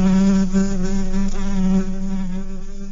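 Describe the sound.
Bees buzz in a steady, continuous drone with a low, even hum and no pauses or talk, fading slightly toward the end.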